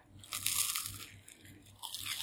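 Quiet crunching bites into toast spread with apple jam and sprinkled with chai spice. A few dry, crackly bursts come in an uneven rhythm with soft chewing between them, and no talk is heard.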